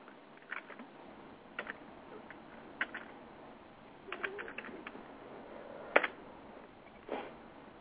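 Sparse computer keyboard typing while searching for Xbox games: a few scattered, quiet key clicks and short click clusters, with no voices.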